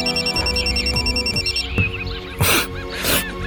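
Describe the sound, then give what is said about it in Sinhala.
A mobile phone rings with an incoming call, its melodic ringtone repeating at a steady loudness through the first half, then giving way to a few sharp noisy bursts. “මේ වෙලාවේ මසල්ගේ phone එකට call එකක් ආවා.”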